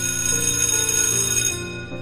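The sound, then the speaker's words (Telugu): A school bell rings at half past four in the afternoon. The bright, metallic ring is continuous and steady with a buzzing undertone, then fades away in the final moments. “సాయంత్రం నాలుగున్నర అవుతుంది school bell మోగింది”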